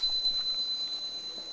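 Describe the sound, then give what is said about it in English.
A bell rings inside a house, a thin, high, sustained tone with a faint higher overtone and a gentle pulsing shimmer, fairly quiet and steady throughout with no talk. “But then, as if it gets closer and like it's behind you, inside the house, and it's the sound of a bell ringing.”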